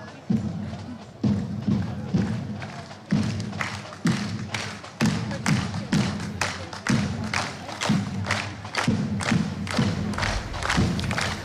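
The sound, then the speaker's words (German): Drums thump in a steady beat of roughly one hit per second while a crowd claps along at a town market during a marksmen's club parade. The dull, even strikes stay strong and regular throughout. “Man hat fast nur die Trommeln gehört und schon ist hier riesiges Geklatsche, Mitgeklatsche.”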